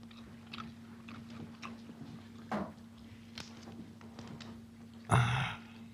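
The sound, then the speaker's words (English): Meat being torn and chewed, heard as faint, sparse wet biting and crunching sounds, a few of them louder, over a steady low hum. “Yeah, she's tearing that freaking meat up.”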